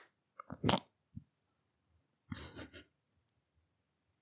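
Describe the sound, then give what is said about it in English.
A voice imitates playful biting as someone pretends to bite a person: a few soft, breathy munching and smacking bursts separated by quiet gaps, with no words. “It's me taking a bite of you. Because you're yummy.”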